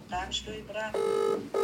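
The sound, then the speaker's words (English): A mobile phone message alert sounds after a brief stretch of voice: two sustained, bright electronic tones, the second cut short at the end. “That's my mother messaging.”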